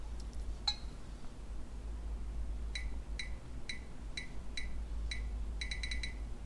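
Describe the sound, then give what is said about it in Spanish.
Short, high electronic ticks from a text-scanning phone app signalling that it detects lines of text on a paper page held in front of it. The ticks are faint and come at irregular intervals, ending in a quicker run of tones. “Ese ruidito significa que está viendo líneas de texto.”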